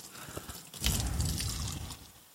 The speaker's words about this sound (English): So I just need a 1/3 of a cup of water, of this warm water that I've got. And I'm going to put it into a bowl.